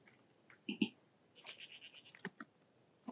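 Someone types on a computer keyboard, with faint, scattered clicks in short irregular bursts and no voices.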